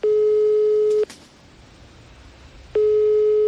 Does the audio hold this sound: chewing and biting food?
no